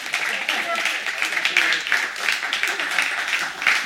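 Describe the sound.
A church audience applauds to welcome people up onto the stage. The clapping is continuous, dense and fairly loud, with a voice speaking over it.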